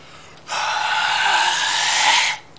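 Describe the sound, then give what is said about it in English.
A forceful exhale through pursed lips during a breathing demonstration, one long, steady airy hiss of about two seconds that starts and stops abruptly. “So look at how I breathe with the air coming out.”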